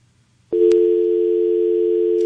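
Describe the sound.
Steady telephone dial tone after a call-in to a radio program drops. It starts abruptly after a moment of near-silence with a faint click, then holds one loud, unbroken, even hum to the end.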